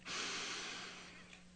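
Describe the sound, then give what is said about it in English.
One long, deep inhalation is taken while lying on the back during a guided relaxation exercise. The breath is soft and airy, rising quickly, then holding steady before gradually tapering off. “whether on the floor, on the carpet, on a rug, on our yoga mat, on the sofa, on our bed, let's go ahead and take a deep breath in.”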